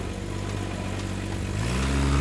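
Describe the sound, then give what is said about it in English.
A battered jeep's engine drives off along a bumpy jungle road, first a steady low rumble, then a rise in pitch as it revs toward the end. “As expected, it was a bumpy ride. The battered jeep bounced around the uneven road, jumping over huge roots and swerving out of the way of a family of jaguars.”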